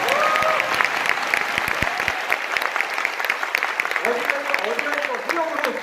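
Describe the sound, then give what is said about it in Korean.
Audience applause during a speech, with a sustained spell of steady clapping and a voice speaking over it at the start and again near the end. “이 정도에 박수 한번 쳐주셔야 됩니다.”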